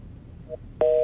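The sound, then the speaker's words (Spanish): Telephone tone after a call drops, a sudden steady electronic beep that starts near the end after near-silence and holds at one pitch. “Uy, se cortó la llamada. Bueno, la recuperamos.”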